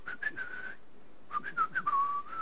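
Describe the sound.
Someone whistles while waiting in a parked car: two short, high, wavering whistled phrases separated by a brief pause, clear and alone with no talking.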